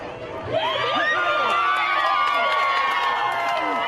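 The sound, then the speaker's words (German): A crowd of demonstrators protesting police violence in the United States shouts and cheers together. It is a dense, steady wall of many raised voices that swells after a slightly quieter start and stays loud throughout. “Wem dient ihr eigentlich? ruft die Menge.”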